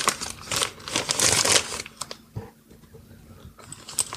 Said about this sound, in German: So, jetzt reiße ich es mal auf.